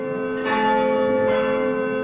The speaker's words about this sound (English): The bells of St. Mary's set the rhythm of life at this abbey in Glencairn, sounding the call to worship.